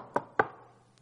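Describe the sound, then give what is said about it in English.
Two sharp knocks on an outer entrance door, quickly spaced, followed by a much fainter tap, with no voices. “Peter knocked at the outer entrance, and a servant girl named Rhoda came to answer the door.”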